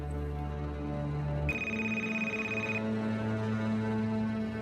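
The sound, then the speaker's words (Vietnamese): A telephone rings with one steady, high electronic tone that holds for just over a second, set against a low, continuous hum. “Điện thoại của bác Phụng reo lên.”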